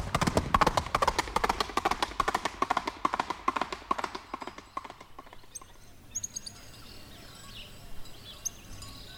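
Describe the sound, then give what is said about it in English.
Horse hooves galloping past as a radio drama sound effect for a rider's horse: fast, steady hoofbeats that weaken after about five seconds, giving way to faint bird chirps. “In the moment that followed, the goblin rider passed by Ichabod's body like a whirlwind.”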